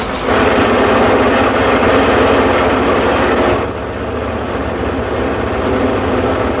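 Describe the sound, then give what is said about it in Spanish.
A tractor arrives in a rural farm field, its heavy engine rumbling loudly and steadily. The rumble dips slightly partway through, then continues at a constant drone. “El hombre del tractor llega.”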